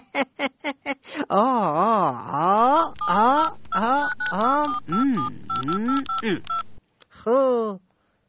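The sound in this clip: A telephone number being dialled on a keypad: a quick run of short electronic beeps at the start, followed by a long stretch of voiced, wavering sound.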